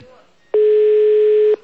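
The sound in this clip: Telephone ringback tone sounds while a call is placed: a faint, murky start, then a single steady, mid-pitched buzzing tone lasting about a second that cuts off cleanly.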